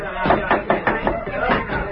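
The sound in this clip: Attackers pounding to break down a ranch house door: heavy, dull thuds strike again and again in an uneven rhythm, several blows in quick succession over a rough, noisy background.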